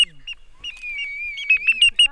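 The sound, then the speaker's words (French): A voice imitates a blackbird's 'tin tin tin' call: a thin, high, bird-like tone that wavers steadily, then breaks into a few short, sharp repeated notes toward the end. “Donc là c'est le tin tin tin du merle.”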